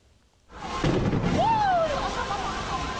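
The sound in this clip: Gas cylinders explode in a fire at a bottled-gas dealer: after a quiet start, a sudden heavy boom bursts out and swells into a continuous loud roar, with people's voices mixed in.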